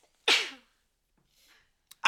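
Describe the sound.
A single sharp, loud sneeze bursts out mid-conversation and fades quickly, followed by a few faint, brief sounds.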